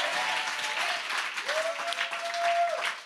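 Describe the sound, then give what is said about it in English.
A church audience claps and applauds in a steady, continuous wash of clapping. A held tone rises partway through and sustains beneath it. “You should be clapping. You should be shouting. You should be believing.”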